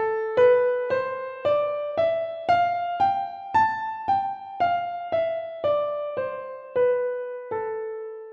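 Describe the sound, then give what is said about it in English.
An A natural minor scale played one note at a time climbs evenly up an octave and then steps back down to the starting A. Each note is struck cleanly and rings briefly before the next, with no voices. “the natural minor, the pure form, is simply the same exact notes of a C major scale, except starting on A. So it would sound like this.”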